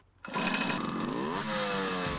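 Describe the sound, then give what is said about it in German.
Mopeds from a moped club rev with a sudden buzzy engine roar after a brief quiet start, the pitch wavering and shifting before it holds at a steady drone. “Hier wird wieder anders Gas gegeben. Die Kutte ist trotz der Hitze ein Muss, ist klar. 16 Mitglieder hat der Motorrad, nein, der Mofa-Club 49ers.”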